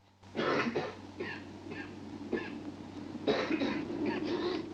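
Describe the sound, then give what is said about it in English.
Coughing from a gang member standing with others in a bar: several rough, hacking coughs and throat clearing in short bursts over a low, steady background hum. “One of them starts to cough.”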